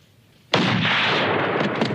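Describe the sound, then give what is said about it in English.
A sudden loud gunshot in a film scene: one sharp blast that sets off a sustained, harsh roar lasting over a second, with no voices. “All of a sudden, he shoots the guys.”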